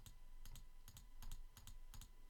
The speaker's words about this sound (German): Und jedes Mal, wenn ich jetzt hier klicke, wird p um 1 erhöht und m um 1 verringert.